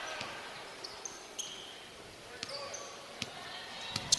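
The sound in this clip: A basketball is dribbled on the court during a women's college game, with many sharp bounces at an irregular pace over a low background of the crowd and the arena.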